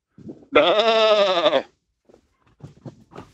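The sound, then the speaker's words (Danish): A person imitating a sheep's bleat with one loud, sustained, wavering baa lasting about a second, set between faint soft voice sounds before and after. “Vi er enige om, at det var et får.”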